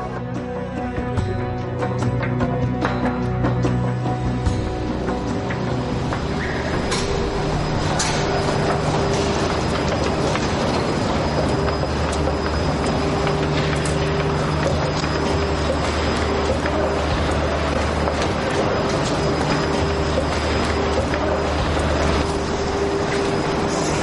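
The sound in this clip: A train on track 2, standing stopped at the platform, gives a steady, continuous rumble with faint tonal hums for the whole stretch, level in loudness, with no talk over it.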